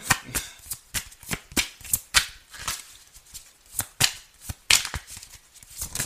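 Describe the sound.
Tarot cards being shuffled: many crisp, short riffling flicks come at irregular intervals, quiet and without any talk.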